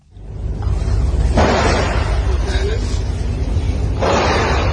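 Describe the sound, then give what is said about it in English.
Gunshots ring out during a school shooting near Bangkok, recorded by students hiding under their desks. Two sudden loud bursts with ringing tails stand out above a constant noisy background. “What had started as an ordinary school day turned into a terrifying ordeal for these students, filming themselves as they hid under their desks, listening to the gunshots.”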